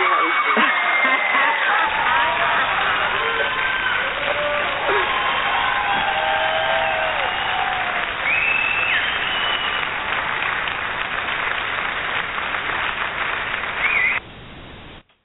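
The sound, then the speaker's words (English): Studio audience applause and cheering that welcomes a returning guest on a talk show: dense, loud clapping with scattered whoops, sustained for about fourteen seconds before cutting off abruptly. “I don't think I've ever got that type of applause.”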